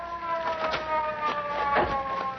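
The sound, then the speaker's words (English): A police car siren approaching, a steady wailing tone with layered harmonics rising and falling gently over a low rumble of traffic, fairly faint and alone without speech. “here comes a police car. Yeah, we'll flag it down.”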